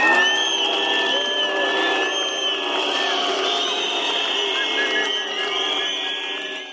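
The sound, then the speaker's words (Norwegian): A crowd boos and whistles at a May Day rally in Aarhus in 2013. A loud, unbroken din is threaded with shrill, sustained whistles from start to end. “Pipekonserten under 1. mai-arrangementet i Århus i 2013 var øredøvende.”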